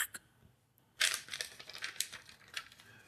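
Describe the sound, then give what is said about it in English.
A paper envelope is torn open: quiet, crisp crackles and rips, with a sharper burst of tearing followed by several short rustling bursts. “I've got the envelope, and I'm opening it up.”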